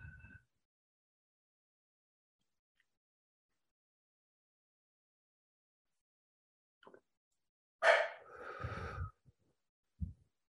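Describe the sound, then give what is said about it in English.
A deep breath stands out once as a breathy rush lasting about a second in near silence, with a few faint, brief breath noises before and after it. “Maybe taking a couple of deep breaths.”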